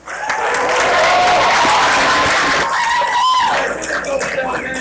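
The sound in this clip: A concert audience applauds and cheers for the sound man: loud, dense clapping mixed with whoops and shouts that swells quickly and stays strong throughout, with a voice faintly audible in the crowd.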